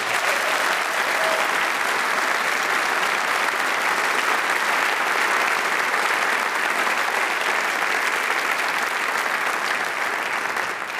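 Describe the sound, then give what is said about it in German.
A concert audience applauds the saxophone soloist of the WDR Big Band Köln after a piece. The clapping is thick, even and sustained, holding at a constant level without voices breaking through. “Und ein Riesenapplaus erstmal für den Solisten des letzten Stückes, das war Johann Hörlén am Saxophon.”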